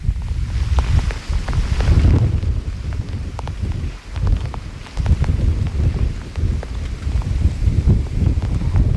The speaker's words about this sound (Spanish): El viento, el que vamos a escuchar, es el que también está mandando aquí en el Palmar de Troya. Lo escuchamos en directo para despedir.